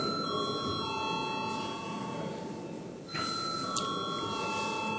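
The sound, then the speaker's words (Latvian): An electric bell rings in a parliament chamber to call members to a vote, a continuous, steady metallic ringing held throughout with no talk over it. “Lūdzu zvanu.”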